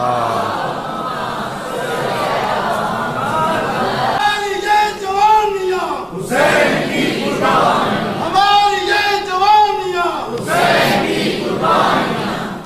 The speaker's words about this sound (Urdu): بر حبیب خدا ختم الانبیاء بلند تر صلوات۔